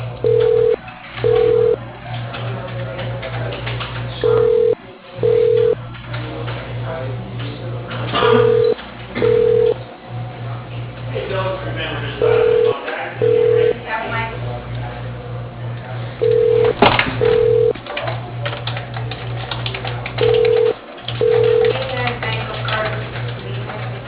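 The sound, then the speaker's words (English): Ringback tone on an outgoing telephone call: six pairs of short beeps repeat about every four seconds over a steady low mains hum, with faint background noise between them. “Okay, dialing.”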